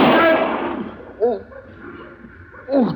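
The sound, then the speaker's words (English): A single gunshot goes off during a struggle over an arrest: one loud, sharp blast with a brief decaying tail, followed by short vocal sounds. “did you shoot him in the arm of purpose?”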